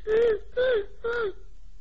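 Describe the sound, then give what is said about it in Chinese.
A voice imitates an old woman wailing and crying: three drawn-out, sobbing cries, each sliding down in pitch at its end, followed by quiet. “阎婆子又哭了。阎婆子这一哭啊”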